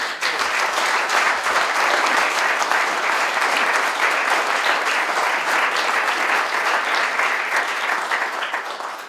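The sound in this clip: Audience applause welcoming a speaker: sustained, dense clapping from many hands that holds strong for several seconds, then tapers off at the end.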